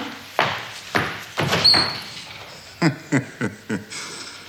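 A door opens onto a small toilet. A short squeak is followed by a string of clunks and rattles, with a few knocks close together near the end.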